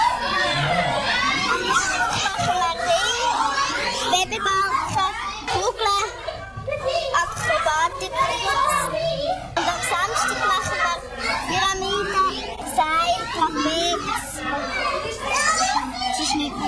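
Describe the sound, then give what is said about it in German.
Loud chatter and shouting of many children practising at a children's circus, a continuous lively din of overlapping young voices with a brief dip midway before it picks up again. “Ja, ein richtig kunterbunter und auch lauter Haufen beim Üben. Der Kinderzirkus Robinson”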